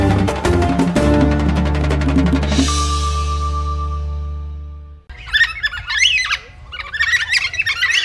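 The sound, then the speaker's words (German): Harsh, rasping squawks of a Carnaby's black cockatoo, an endangered bird of southwestern Western Australia, come in a few loud bursts after a sustained resonant musical chord fades away. “Das Geräusch, das Sie hören, ist der Ruf eines Vogels, den man Carnaby's Black Cockatoo nennt.”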